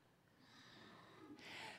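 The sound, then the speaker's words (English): A big breath drawn in before a group sings praise: airy, noisy breathing that swells into a stronger, louder inhale near the end, with no talk. “Take a big breath.”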